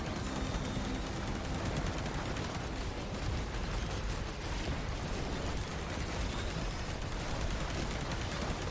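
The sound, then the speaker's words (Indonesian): Machine gun fire from the video game Risk of Rain 2, with the player using a braided machine gun against enemies: a dense, continuous stream of rapid shots that holds at a steady, loud level for the whole stretch. “Ini tuh lagi nembak yang dikit. Gua lagi nembakin sama ini lah pakai braided machine gun ini anjing.”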